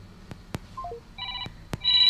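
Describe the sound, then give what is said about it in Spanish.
Telephones ring on a phone line where calls are crossing: short electronic tone bursts and a quick falling three-note blip, broken by several sharp clicks. “están cruzándose las llamadas, miren, siguen sonando los teléfonos.”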